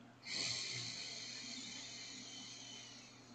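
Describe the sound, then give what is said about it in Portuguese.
A slow breath during a guided breathing exercise, heard as one long, soft, airy rush that starts abruptly and holds steady for about three seconds before easing off slightly. “E expirando amor. Inspirando luz.”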